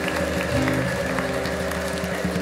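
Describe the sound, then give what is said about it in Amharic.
Applause from a church audience: dense, continuous clapping that stays loud and even for the whole stretch, with no pause or build. “እልልታ አንጨብጨባን እንደገና ለእግዚአብሔር እንሰጣለን።”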